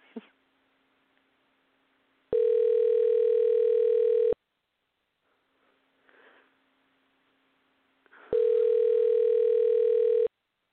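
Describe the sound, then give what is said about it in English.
A telephone dial tone sounds as two long, steady buzzing tones of about two seconds each, separated by a quiet pause with faint rustling and a brief sniff-like noise. “I've been having trouble with Blog Talk Radio trying to get in, so I'm not sure what's going to happen. At least it's dialing.”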